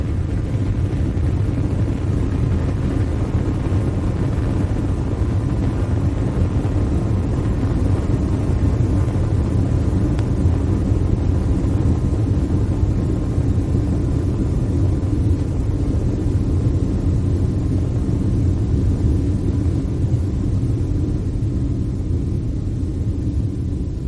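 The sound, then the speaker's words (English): Deep rocket engine rumble during liftoff of a moon mission launch, a dense low roar that holds steady in loudness for the whole stretch, with no voices. “We have ignition. 3, 2, 1. We have liftoff.”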